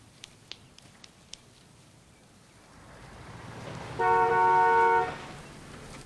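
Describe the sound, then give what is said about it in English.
Estate car drawing up, a low engine rumble that grows steadily louder, followed by a short horn toot of about a second, all fairly faint. “An estate car draws up. They all swivel round.”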